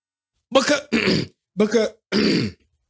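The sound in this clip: A person clears their throat of apple pie stuck in it, making four rough, forceful rasping bursts in quick succession. Each burst lasts under a second, with brief gaps between them.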